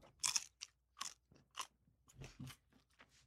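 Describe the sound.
Close, quiet chewing of an organic quarter-pound cheeseburger, with a series of crunchy, moist bites and chews in an uneven rhythm and no talking.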